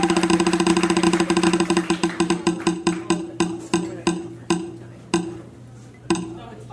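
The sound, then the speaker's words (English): A spinning prize wheel ticks in a rapid run of clicks that gradually slow and spread apart, ending in a few widely spaced, sharp ticks with no talk over them. “Let's spin it one more time. Spin it again.”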